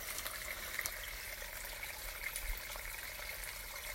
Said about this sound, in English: Just peeping into the stream. All this beautiful rainwater.